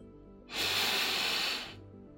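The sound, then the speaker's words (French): A deep breath taken during a stop-smoking hypnosis session, a single soft airy hiss lasting about a second that rises quickly and then tapers away against quiet. “Prenez une grande inspiration”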